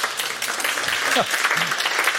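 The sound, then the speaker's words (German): Applause from a concert audience after an orchestral summer concert: a dense, steady patter of many hands clapping, even and sustained throughout, with a brief voice murmuring faintly underneath. “Vielen Dank, der Applaus für Sie.”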